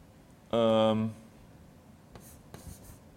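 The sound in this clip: Math terms being written out by hand: a brief hummed vocal sound, then a few short, faint scratchy pen strokes against a quiet background.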